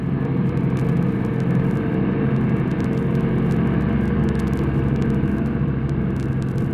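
A light airplane's engine drones in flight during a steep left bank, a steady, continuous low rumble with no clear change in pitch and no voices.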